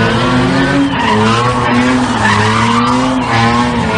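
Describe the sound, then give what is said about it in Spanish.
Cars skidding during illegal street races in the city of Málaga: continuous high-pitched tire squeal with wavering tones over a steady engine roar, loud throughout with no pauses. “Así suenan las carreras ilegales que se venían celebrando en distintos puntos de la ciudad de Málaga, que congregaban a decenas de personas.”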